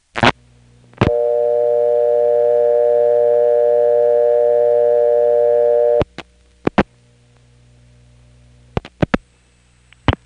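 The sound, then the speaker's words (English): A payphone handset gives a click and then a loud, steady dial tone for about five seconds before a few sharp dialing clicks, as directory assistance is dialed with 41 without depositing a dime. “you only had to dial 41 to get directory assistance. This is one of the few things you can dial without depositing a dime first.”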